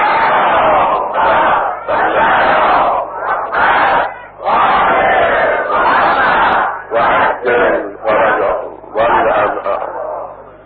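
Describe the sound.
A crowd at an Imam Hussain votive meal gathering loudly recites salawat in unison, in forceful chanted bursts separated by short pauses, many voices blending into a roaring mass.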